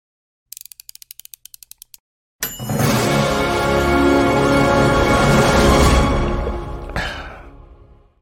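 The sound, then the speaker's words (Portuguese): An intro jingle for a running-themed morning program starts with a quick run of ratchet-like mechanical clicks. After a brief silence it swells into a loud, dense sustained wash that fades out toward the end. “Vamos soltar a vinheta.”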